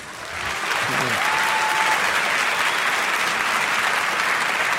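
Sustained applause from a festival audience in a large congress hall in Nantes, swelling within the first half second, then holding dense and steady to the end.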